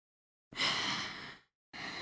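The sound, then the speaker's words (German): Heavy breathing with a long, loud, breathy exhale lasting about a second. After a short pause, another strong breath begins and runs to the end. “Ich atme doch noch. Ich hauche und fauche. Einatmen. Ausatmen.”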